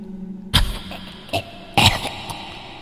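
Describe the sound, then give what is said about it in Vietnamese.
An old woman coughing: a few rough, hacking coughs in short bursts, separated by brief pauses over a faint background. “Chỉ còn đâu đó tiếng của bà cụ cùng với câu gọi và tiếng ho khủng khục”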